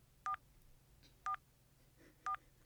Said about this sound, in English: Dialing.